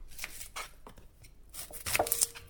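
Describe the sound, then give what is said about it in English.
A knife cuts up a shallot, giving a few faint, irregular chopping taps. The cuts are spread out at first and then come in a quicker cluster near the end. “And what we're going to start with is cutting up a shallot.”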